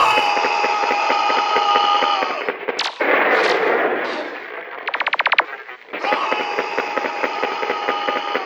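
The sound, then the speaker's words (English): Gunfire from a gun in a building lobby: loud blasts and a rapid burst of many sharp shots, set between stretches of loud, pulsing, tonal sound. “He's got a gun!”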